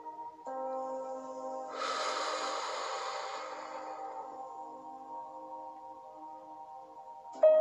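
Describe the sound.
Breath blown out onto something: a soft, breathy rush of air lasting about two seconds, rising out of a steady droning tone that continues before and after it.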